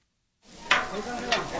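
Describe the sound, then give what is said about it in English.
Heaping piles of pork and beef for tacos sizzle on a flat-top grill in a park. A steady, bright hiss starts after a brief silence, with two sharper scraping bursts as the meat is stirred. “Heaping piles of pork and beef sizzle on a flat top in front of a winding line of people in a park in Greensboro”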